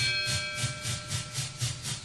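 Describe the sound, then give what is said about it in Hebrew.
A train sound effect opens a famous Israeli rock song: a steady rhythmic chugging pulses about four times a second under a constant steamy hiss, with faint sustained tones ringing above. “אז בוא נשמע את השיר הכי מוכר, הכי מפורסם של הלהקה, מתחיל כמובן עם אפקט של רכבת כדי להכניס אותנו לאווירה”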